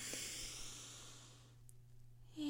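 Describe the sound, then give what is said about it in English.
A deep breath drawn in through the nose during a guided relaxation exercise: a soft, steady breathy hiss lasting about a second and a half, fading out into near silence, with no voices. “So let's take a deep breath, in through the nose,”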